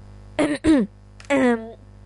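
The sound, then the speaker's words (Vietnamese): A person clears their throat with a voiced, ahem-like sound: two quick bursts followed by a longer one, fairly loud and heard alone. “Tôi ép mình thức tỉnh khỏi mộng mị, liền hắng giọng một tiếng:”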